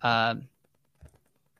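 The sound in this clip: A brief burst of a few computer keyboard clicks, quiet and quick, following a short, loud vocal sound at the start.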